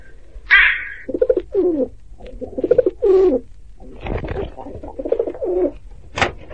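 Pigeons cooing under a roof in a series of soft, low, throaty coos in rolling phrases. A higher note comes at the start and a sharp click near the end.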